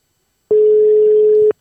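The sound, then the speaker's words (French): Ringback tone of an outgoing telephone call: a single steady, even electronic beep about a second long, sounding alone with no voices. “Attention. Ça sonne. Première sonnerie.”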